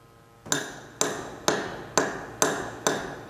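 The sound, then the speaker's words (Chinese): Seven sharp, evenly spaced taps as a screwdriver is jabbed hard against a hardened carbon-fixing cementitious block, each strike a bright click with a short ringing tail, steady in rhythm and fairly loud with nothing else heard. “我用螺丝刀用力的戳它，也只是在表面留下了一点轻微的划痕。”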